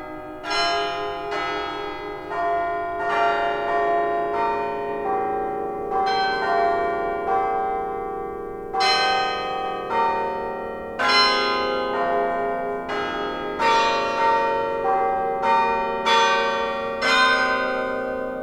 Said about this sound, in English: And if this digital media ever decides to start, maybe we can hear some Carillon. Here we go. Hit the levers.